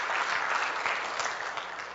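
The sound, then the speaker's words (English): A church audience applauds visitors with steady, fairly soft clapping from many hands that holds evenly and eases slightly at the end. “Let's give our visitors a good round of applause.”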